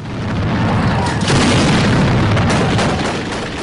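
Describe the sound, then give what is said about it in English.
Heavy weapons and mortar fire in a town in Syria, heard as a loud, dense, continuous rumble of overlapping booms and blasts that swells slightly midway and stays heavy throughout. “They went in and immediately started firing with heavy weapons. We've seen mortars come this way.”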